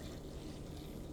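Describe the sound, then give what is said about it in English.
Mountain Dew Code Red soda pours into a mug, a soft, steady trickling fizz that holds at a low, even level throughout with no speech. “You know what that is? It's Mountain Dew. That's the sound of Mountain Dew Code Red.”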